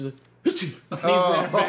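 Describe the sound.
A voice imitating a sneeze, acted out for a web-series scene where one girl sneezes into another's face as they lean in to kiss. It comes as two short voiced bursts with a brief gap between them, the second longer and louder.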